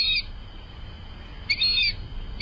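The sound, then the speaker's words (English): Fulvous whistling duck calling: two short, high, thin whistled squeals separated by a pause of a little over a second, standing out above a low, steady rumble. “birders in North America know the word in association with today's featured feathered friend, the fulvous whistling duck.”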